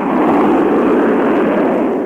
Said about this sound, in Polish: Seconds to launch. And ignition.